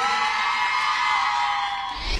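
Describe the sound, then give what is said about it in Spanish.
Concert audience cheering and whooping: a brief, steady wash of crowd voices with high shouts, holding level before a low thump at the end. “Fuerte el aplauso para el guacho, che.”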